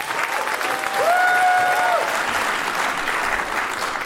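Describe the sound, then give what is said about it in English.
Sustained audience applause greets a guest at an evening event, a dense, steady wash of many hands clapping that lasts the whole four seconds without easing off. “Please, everyone, ladies and gentlemen, put your hands together for Kelly Hoppen.”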